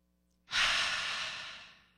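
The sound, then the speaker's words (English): A single deep breath, drawn in and let out as one long, breathy rush that swells quickly, then slowly fades away. No voices or other sounds accompany it. “So we could take a breath.”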